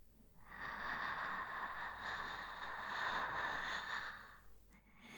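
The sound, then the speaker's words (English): A slow, deep breath drawn as a long, soft airy hiss, steady for about four seconds and quiet, with no talking over it. “One more time. Breathe in with me.”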